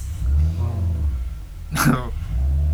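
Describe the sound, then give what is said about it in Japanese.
A loud, deep engine rumble from a car-loving neighbour's car reversing into a garage. The low drone holds steady while people talk over it. “隣の人があのこう車好きな人がいて、うん、車庫入れしてるんです。ものすごい低音がうるさい。”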